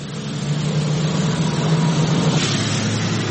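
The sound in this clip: Dozens of cargo trucks carrying people fleeing Idlib rumble toward the Turkish border. Their heavy engines make a steady, loud, low drone with a faint hum, and no voices are heard.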